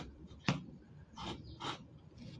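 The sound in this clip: Drawing on paper: faint, scratchy strokes, a few short rubs spaced out after one sharp tap near the start, all soft and quiet.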